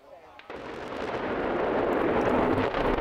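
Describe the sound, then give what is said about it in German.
Explosive demolition of a huge chimney at a former lignite coal power plant: a sharp blast onset followed by a deep, broad roar that swells and keeps rumbling loudly to the end. “Heute hat der Energiekonzern RWE einen riesigen Schornstein des ehemaligen Braunkohlekraftwerks Frimmersdorf gesprengt.”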